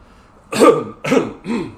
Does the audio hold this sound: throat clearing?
yes

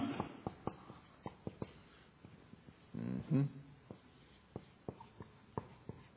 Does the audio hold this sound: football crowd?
no

